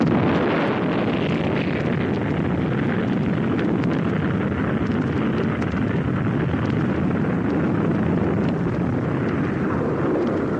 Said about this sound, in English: the new masters of the globe panicked and unleashed their doomsday machine, the Mouska Bomb.